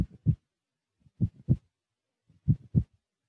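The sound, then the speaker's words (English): A human heartbeat, the body's pulse, thumps in three clear double beats. Each pair is a soft, low lub-dub, evenly spaced, with quiet stillness between them. “there would still be the sound of your body, that pulse which keeps on going, the rhythm of your life.”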